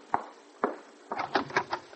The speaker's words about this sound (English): And then one night, there was a knock on the door of the house in Utah Street. I'll see who it is.